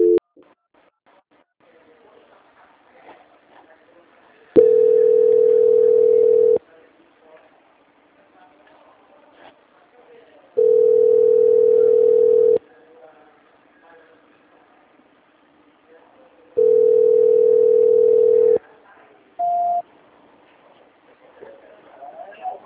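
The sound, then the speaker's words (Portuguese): A telephone line tone plays while a call is being transferred: three long, steady mid-pitched beeps spaced about six seconds apart, then one short higher beep, with faint low noise in between. “Só mais um momento que eu estou transferindo a ligação.”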